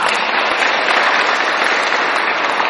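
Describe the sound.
Audience applause fills the whole stretch, a dense, steady wash of many hands clapping at an even loudness, with no voices standing out above it.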